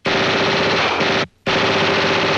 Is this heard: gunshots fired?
yes